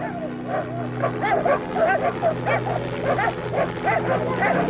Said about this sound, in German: Die Hunde. Vorsicht, die Hunde.